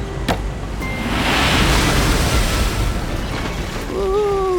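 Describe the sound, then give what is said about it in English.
A breaking ocean wave while surfing: a broad rushing roar that swells and then eases off, with a brief voice rising at the end. “Here comes a wave.”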